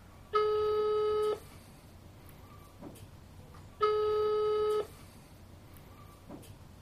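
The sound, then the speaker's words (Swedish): The ringback tone of an outgoing phone call sounds as two steady, clear beeps, each about a second long. A few seconds of quiet with faint clicks separate them. “Och vi ska ringa till vinnaren. Vi ska ringa vinnaren nu faktiskt.”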